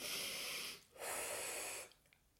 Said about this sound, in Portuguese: Vamos respirar fundo.